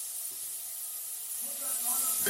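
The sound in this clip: Oil sizzles in a pan during cooking, a steady, bright hiss that grows slightly louder toward the end, while a voice speaks briefly over it.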